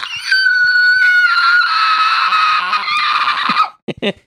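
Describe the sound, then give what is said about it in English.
A voice imitates a horror-movie alien scream: a loud, shrill, sustained wail lasting about three and a half seconds, its pitch sagging slightly before it cuts off into a couple of brief sounds. “You should have just screamed like the Body Snatchers.”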